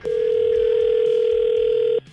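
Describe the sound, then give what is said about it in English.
A telephone dial tone heard while a call is being placed: one steady, clear, loud tone that holds for about two seconds and then cuts off abruptly, followed by quiet line noise. “let's get her on the phone and see what's up.”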